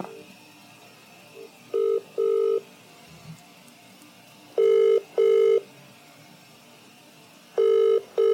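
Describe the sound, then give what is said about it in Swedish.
Ringing tone of an outgoing telephone call: clean electronic beeps in pairs, repeating at regular intervals of a few seconds, over a quiet, faint background with no talking. “Ska jag testa och ringa honom? Och fråga.”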